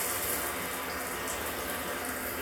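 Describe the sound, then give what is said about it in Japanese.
A shower runs in a bathroom, giving a steady, even hiss of falling water with no breaks from start to finish. “風呂溜めてなかったけ、シャワーでいいだろ。”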